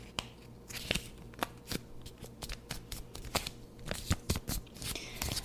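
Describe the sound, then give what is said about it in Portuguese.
Crisp paper crackles and creases as a sheet listing goals for 2024 is folded neatly, giving many sharp, dry rustles in an uneven rhythm with no talking. “Todas as metas estão aqui. Eu vou dobrar direitinho. Eu vou dobrar direitinho pra você não perder.”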